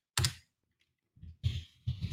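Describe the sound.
Typing a note on a computer keyboard: a few short bursts of clicking clatter, with a quiet gap after the first burst and the rest coming close together, no voices.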